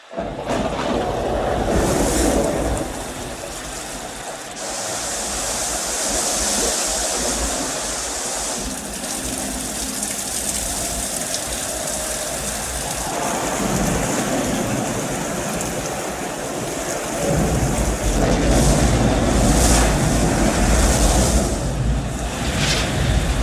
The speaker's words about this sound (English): and rain and rain. The deluge.